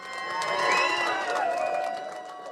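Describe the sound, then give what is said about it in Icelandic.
A crowd cheers at the L-list election night gathering at Glerártorg. The cheering and shouting are fairly faint, swelling and then easing off over a couple of seconds. “Sjónvarpsupptökur frá kosningavöku L-listans á Glerártorgi þessa nótt sína fagnaðalætin.”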